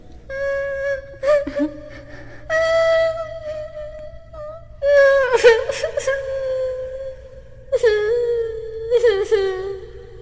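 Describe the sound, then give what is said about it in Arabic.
Whimpering, wailing cries from a voice acting a crying child, in several bursts of wavering, sustained tones that often slide downward, separated by short pauses. “كنت أسمع ضجة وأصوات صاخبة وصوت الكرة، ما لي أسمع الآن صوت بكاء؟ من ذا الذي يبكي تحت ظلالي؟”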